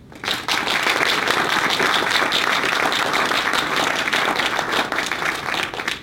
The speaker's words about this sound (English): so please join me in welcoming our Stephen B. and Janice G. Ashley, Associate Curator in the Department of Photography, Jamie M. Allen.